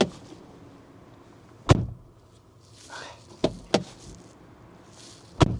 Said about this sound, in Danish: Og nu prøver jeg lige at åbne og lukke døren her udenfor, fordi det gælder altså også der. Det lyder bare ikke klassisk BMW. Jeg prøver også lige at gøre det med fordøren.